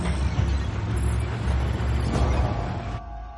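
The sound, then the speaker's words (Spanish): A garbage truck drives through an alley, its low engine rumble loud and steady for about three seconds before dropping to a quieter hum at the end. “Baja hasta un callejón, sigue al camión de basura y se coloca bajo él.”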